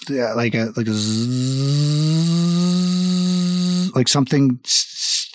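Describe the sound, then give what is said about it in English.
A voice imitates a high-speed whirring, like a metal plate spun very fast: a sustained buzzing hum that climbs slightly in pitch and holds, set between short bursts of vocal sound. “Is that a drill? It's more like a spinning sound, like if you were to take a metal plate and to spin it super fast.”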